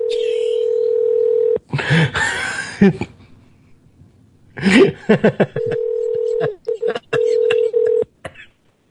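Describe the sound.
A telephone gives out its ringing: steady, mid-pitched electronic tones that sound in a few separate bursts, with voices talking in the gaps between them.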